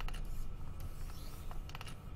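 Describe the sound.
A stylus scratches lines across a drawing tablet, making a continuous rough scraping with several brief, sharper strokes mixed into a dense, noisy texture.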